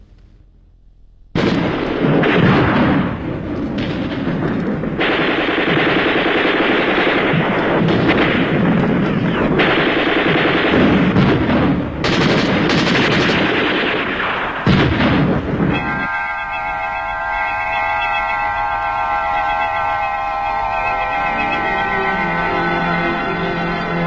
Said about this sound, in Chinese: 那些年月里，飞鸟早已习惯了枪声炮声，习惯了硝烟弥漫的天空